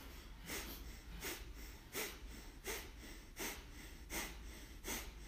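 Rapid, forceful breathing pumps in a yoga breathing exercise: a steady run of sharp, hissing exhalations at an even quick rhythm, each a short breathy burst with quieter breath between.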